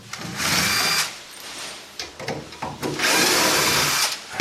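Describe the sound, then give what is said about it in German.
A cordless screwdriver backs screws out of a shelf. Two long, loud whirring runs are separated by a quieter stretch of short bursts and clicks. No one speaks. “Und natürlich der Akkuschrauber unter anderem, damit du die Schrauben rein und raus kriegst, logischerweise.”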